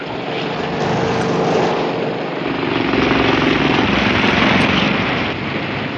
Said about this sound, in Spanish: ¡Está elevándose! ¡Desaparece en el cielo de la noche! No lo volveremos a ver. Ese hidroplano cumplió con su cometido ya.